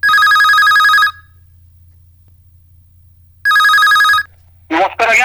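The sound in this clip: An electronic telephone rings for an incoming call to a phone-in show, sounding in two loud bursts of rapid trilling with a quiet gap between them. A voice begins briefly at the end.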